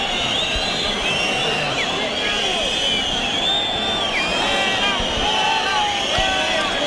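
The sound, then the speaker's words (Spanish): A bullring crowd protests loudly at a bullfight over a bull whose left horn is split at the base: a steady, dense roar of voices laced with many shrill whistles, unbroken throughout. “Bueno, la bronca es enorme porque el pitón izquierdo del toro está partido por la cepa. Y el público no quiere que empiece la faena de muleta.”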